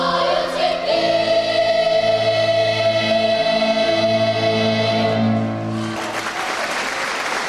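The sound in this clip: Applause from a packed hall for maestro Mansurian, after children from Artsakh sing a melody he wrote. Sustained tonal music fills the first six seconds, then dense, steady clapping carries on alone.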